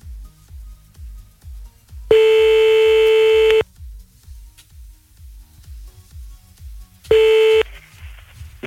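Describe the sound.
A telephone ringback tone heard while calling someone back during a prank phone call: two long, steady ringing tones, the second cut short, separated by a pause, over a rhythmic low thumping beat.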